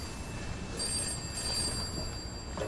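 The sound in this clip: A telephone ringing with a high electronic trilling ring that pulses over a steady hiss of background noise.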